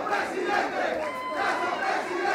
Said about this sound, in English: Several hundred people cheered last night as Guillermo Lasso prepared to give his victory speech.